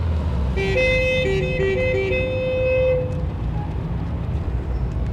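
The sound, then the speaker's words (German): Car horns honk over steady, dense road-traffic noise in a city traffic jam in Frankfurt: several high tonal horn blasts, some held and some broken, sound during the first few seconds, then the traffic rumble carries on alone. “eine Verkehrsstauung mehr in Frankfurt. Ein absolut alltäglicher Vorgang bei Ihnen, nicht?”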